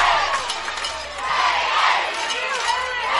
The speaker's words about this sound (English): You hear the Raider crowd on their feet chanting Raiders.